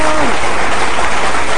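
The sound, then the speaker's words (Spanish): Applause sound effect: a dense, loud burst of crowd clapping that holds steady and continuous for just over a second and a half. “Espérame, esto merita un aplauso. Ahí está tus aplausos.”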